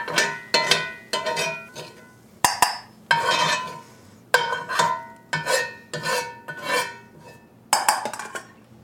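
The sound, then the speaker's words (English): A utensil scrapes and clinks against a skillet as golden-brown, tender cooked leeks are moved into a small bowl. Many short metallic scrapes come in an uneven rhythm, separated by brief quiet gaps. “I'm going to take them out of the skillet and move them to a little bowl.”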